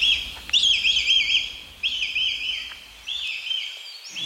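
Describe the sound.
Agitated red kites call near their nest in late May, during the breeding season. High, quavering whistled cries come in three long drawn-out phrases, loud and clear over a quiet background.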